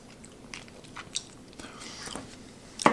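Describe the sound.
A spoonful of macaroni and cheese in creamy cheese sauce being eaten: faint, wet chewing and mouth sounds, with a sharper, louder bite near the end.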